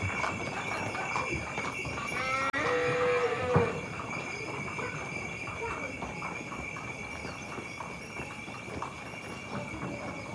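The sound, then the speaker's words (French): Horse-drawn cart passing near a village, hooves clip-clopping in a steady rhythm with a rolling rumble of wheels beneath, while people speak nearby. “Attention, chariot. Ah, merci beaucoup. Elle est passée près, la charrette.”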